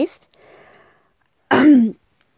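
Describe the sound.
Throat clearing that turns into a choking cough: one loud, harsh, rasping burst lasting about half a second, following a faint, rough breath, then silence.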